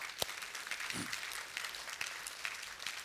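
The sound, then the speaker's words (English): Faint applause from a church audience as an ovation for visiting guests, with scattered claps over a soft, steady wash. “So we want to give you an ovation.”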